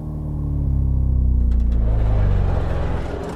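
A car drives across a bridge into a city, its engine a deep droning rumble that swells in, holds steady and loud, then eases off at the end, with no voices.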